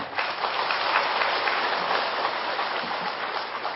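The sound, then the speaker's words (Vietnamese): A Buddhist lecture audience applauds the monk giving the talk, a steady, even rush of many hands clapping together at moderate volume, with no talking over it. “Chắc vị vỗ tay đặng buộc tôi phải trả đó đúng không?”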